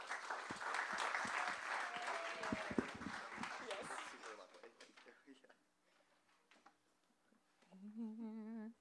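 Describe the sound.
Audience applause welcomes two speakers to a lecture at USC Roski School of Art and Design. Dense clapping runs for about five seconds, then thins to a faint patter before a single voice begins speaking.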